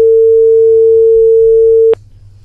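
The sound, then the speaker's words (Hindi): A telephone tone after a dropped call: one loud, steady mid-pitched hum held unbroken for about two seconds, then cut off abruptly, leaving only faint low background noise. “किसी कारण से phone cut गया।”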